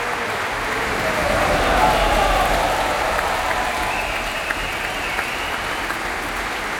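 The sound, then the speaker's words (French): Enthusiastic applause from an audience as musicians of the Orchestre National de France bow at the Opéra Berlioz: dense, sustained clapping that swells slightly around the second second, then holds steady to the end. “des musiciennes de l'Orchestre National de France qui saluent devant ce public très enthousiaste, vous l'entendez ici à l'Opéra Berlioz.”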